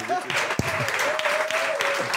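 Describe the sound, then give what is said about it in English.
Audience applause welcoming a guest at a live event, steady, even clapping throughout with a voice speaking over it. “Can we have a big round of applause for the tenured professor from Seattle”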